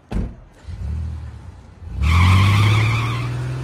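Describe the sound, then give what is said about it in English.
A white Porsche speeds away: a quieter rumble gives way to a sudden loud engine roar with tire squeal that continues to the end. “Julius watches as Zora speeds away”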